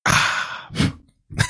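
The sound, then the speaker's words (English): Breathy exhales from someone puffing on a cigar: one long blown-out breath, then two shorter puffs, with no talk. “I finally got a puff on my cigar there.”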